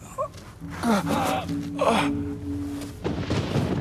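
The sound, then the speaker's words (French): A man gasps and struggles for breath after falling flat on his stomach from a stone balustrade. A few strained, breathy gasps and heaves sound over a steady low tone. “Il cherche son souffle.”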